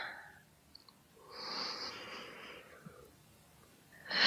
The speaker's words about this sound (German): Magst du einmal tief durchatmen? Genau, ganz tief in den Bauch einatmen.